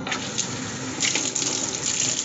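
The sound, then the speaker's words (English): Water runs from a kitchen tap in a steady, continuous rushing splash, with no break and no voices. “I'm going to run some water.”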